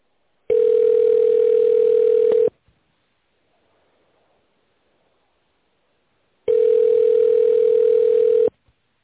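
A telephone ringing tone heard while waiting for a company secretary to answer: two long, steady, mid-pitched buzzing tones, each about two seconds, separated by roughly four seconds of silence.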